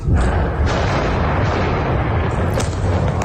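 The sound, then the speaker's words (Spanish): Heavy rumbling roar from Israeli bombing in eastern Lebanon's Bekaa Valley: a dense, steady, bass-heavy noise with no clearly separate blasts, loud throughout. “Sonido de esos bombardeos.”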